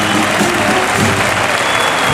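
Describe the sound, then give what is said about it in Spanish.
Bullring crowd on its feet applauding a bullfighter after a daring move: dense, steady clapping with no break and a loud, even roar throughout. “Y la plaza que se pone en pie aplaudiendo a Manuel Escribano”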